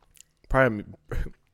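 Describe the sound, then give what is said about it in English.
Eating Greek yogurt with strawberries and cereal: two short bursts of soft, wet chewing, the first carrying a voiced hum of enjoyment. Quiet overall, with brief silence between them. “I'm eating this Greek yogurt with strawberries and cereal in it. Mmm. These strawberries are sweet, though.”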